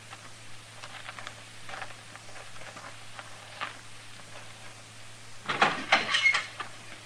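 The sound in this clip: Footsteps of someone approaching, sparse faint taps over a steady low hum that give way to a louder cluster of scuffing knocks near the end.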